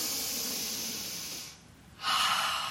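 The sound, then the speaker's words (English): A deep breath drawn in during a yoga practice: an airy, breathy hiss that eases briefly into a lull, then swells louder toward the end. “Take a deep breath in.”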